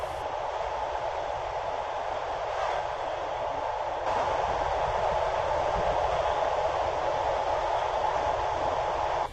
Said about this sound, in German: der Zug rollte weiter in Richtung Süden